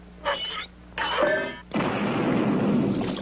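Cannon fire from a ship: three loud blasts in a row, the first two short and the last a longer rolling roar.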